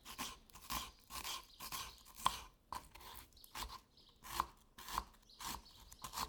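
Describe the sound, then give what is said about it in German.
A knife chops onions with many quick, crisp cuts in a steady, even rhythm, faint and alone. “Wenn zum Beispiel Zwiebeln geschnitten werden, klingt das Geräusch so.”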